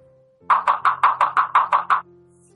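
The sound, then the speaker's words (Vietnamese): Knocking on a wooden door: nine quick, evenly spaced knuckle raps in a steady run, crisp and fairly loud, followed by quiet. “gõ cửa, lỗ tai dán ở trên ván cửa”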